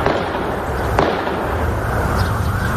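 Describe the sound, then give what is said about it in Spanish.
Gunshots crack during a shooting in the United States, a few sharp bangs standing out over a dense, noisy background. “El drama de las armas en el país de Biden no se para.”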